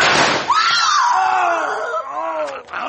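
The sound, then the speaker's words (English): A gunshot in a Western radio drama bursts out at the start, followed by a long whining tone that slowly sinks in pitch and a faint second crack near the end. “Make no other move, Mavericks. The next bullets will do more than shoot the guns from your hands.”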